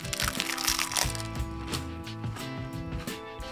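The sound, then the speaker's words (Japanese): Crunchy Zakky snack being eaten, giving a run of crisp, crackling crunches with uneven timing. The bites are loudest near the start and grow softer and sparser toward the end. “こちらザッキーを食べたいと思います開けていただきますあこぼれるこぼれるこぼさないようにいただきます”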